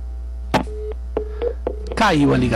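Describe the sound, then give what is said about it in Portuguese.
Telephone line tones after a call drops during a live radio phone-in: a few short, steady beeps mixed with sharp clicks, then a voice begins talking. “Caiu a ligação. É assim mesmo, programa ao vivo, nós temos isso. O programa caiu, a linha caiu”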